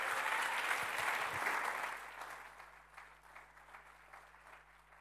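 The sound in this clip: Warm applause from a church audience welcoming a speaker, a dense wash of clapping that gradually thins out and fades over a few seconds.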